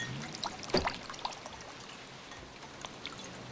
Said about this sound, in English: She pours him a glass and hands it to him.